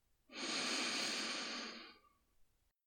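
A long, deep breath during a guided relaxation breathing exercise: one steady, soft rush of air lasting under two seconds that fades out gently, with no voice.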